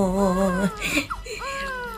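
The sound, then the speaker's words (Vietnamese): A baby cries in a short burst: a steady wail, then broken whimpering sobs. “Ngoan quá, ngoan quá, nín khóc rồi này.”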